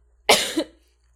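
A single cough after inhaling spit: a sharp, loud burst that trails into a shorter second catch, with quiet around it.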